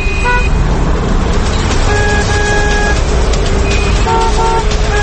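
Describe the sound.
Dense city traffic with many car horns honking over a constant, loud engine rumble; short toots and longer blasts overlap throughout.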